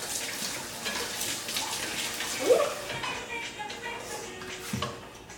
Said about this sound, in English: I'm gonna wash my fingers